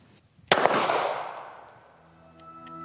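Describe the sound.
A handgun fired once, a single sharp, loud crack followed by a long, slowly fading ring, with faint clicks just before the shot.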